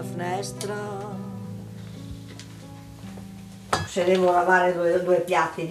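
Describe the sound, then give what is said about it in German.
Plates and cutlery clink as dishes are washed by hand. A few sharp clatters of crockery sit over a steady tonal background, growing busier and louder in the second half. “Wenn ich ein paar Teller abwaschen muss, dann mache ich das jetzt.”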